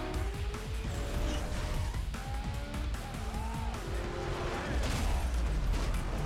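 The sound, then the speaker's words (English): Tire screeching in a racing video game, whining tones laid over a continuous roar of engine noise and dense rumbling that fills the whole clip at a steady level. “Tell me if you remember. Was that tire screeching? Yes.”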